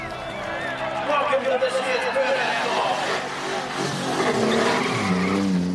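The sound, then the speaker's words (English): Car tyres screech and skid as cars pull wheelies in a motorsport contest. A sustained, loud squeal is layered with engine noise and other busy sound. “There's a lot of screaming wheelies and smoking, shredding tyres”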